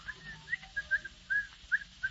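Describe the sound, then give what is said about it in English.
Cheerful whistling from a man coming down the stairs: a tuneful run of short, bright notes with uneven rhythm and small gaps between phrases, fairly faint and heard alone without talk. “Down the stairs comes the happily demented Mr. Van Dyke, whistling cheerfully.”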